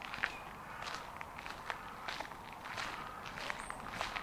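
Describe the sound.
Footsteps walk along at a steady, even pace: many soft, scuffing steps follow one another without pause.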